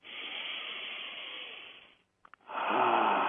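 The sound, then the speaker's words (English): People taking a deep breath together: a long, airy inhale of about two seconds, a short pause, then a strong, breathy exhale. No one speaks. “You know why I know I am loved? Why I know you are loved? Simply because of that breath we just took. Let's take another breath right there.”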